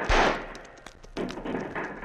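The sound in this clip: Gunfire in a western shootout as soldiers take cover on a river sandbar behind fallen trees. A few sharp bangs with rough, noisy tails, fairly faint, the first burst the strongest.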